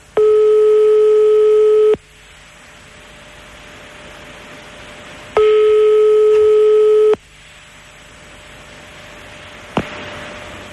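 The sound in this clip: Telephone ringing tones during a call: two steady, loud tones of about two seconds each, separated by a longer pause filled with faint line hiss, followed by a brief click near the end.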